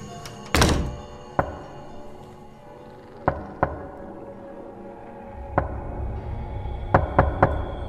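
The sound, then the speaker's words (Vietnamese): Knocking sounds on a door at night: soft, hollow thuds at irregular intervals, the first one louder, with a short quick cluster near the end. A faint hum lies underneath, and no voices are heard. “Tiếng gõ cửa vang lên rất rõ ràng ở trong màn đêm.”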